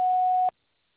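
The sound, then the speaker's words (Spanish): A voicemail recording tone sounds once, a single steady mid-pitched beep lasting about half a second before cutting off abruptly into silence. “Nada ha sido grabado. Después del tono, grabe su mensaje.”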